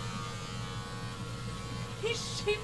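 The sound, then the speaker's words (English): Electric shaver buzzing as it shaves hair on a right foot down by the ankle and toe, a steady mid-level hum with a couple of short higher chirps near the end. “He's shaving his right hoof now.”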